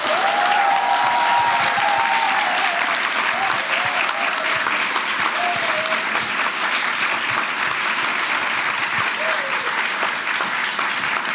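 A live audience applauds at the Ö1 Club 30th anniversary quiz in the Vienna Museumsquartier. The clapping is loud and dense and holds steady for about eleven seconds.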